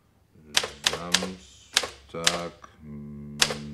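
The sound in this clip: A typewriter types out a note: six sharp, loud key strikes land at uneven intervals, with a voice heard between them.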